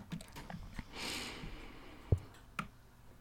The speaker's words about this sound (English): Listen to me type.